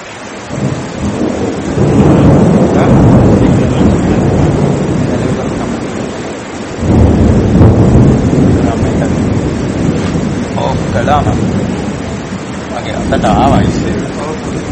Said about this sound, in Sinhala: ඒක මයික් එක ඔෆ් කරන්න වෙනවා. මේ අකුණු ගහන හින්දා මේකට හොඳ නෑ.